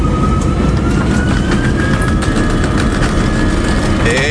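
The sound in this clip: An airplane taking off gives a loud, steady engine roar throughout, with a thin whine rising slowly in pitch above the broad rumble.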